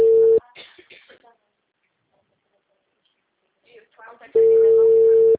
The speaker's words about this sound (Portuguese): Ela não me atendeu de primeira e eu continuei fazendo e agora eu liguei de novo, tá vendo? Chamada encaminhada para a caixa.